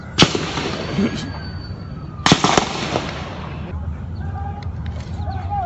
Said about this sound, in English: More than 25 bullets, by the way, are heard ripping through the air in the footage.